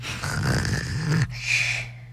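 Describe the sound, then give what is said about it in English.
A young boy pretends to snore, making two drawn-out, throaty snore-like noises with his voice, the first longer than the second. “that was him pretending to snore because he was bored with that entire thing”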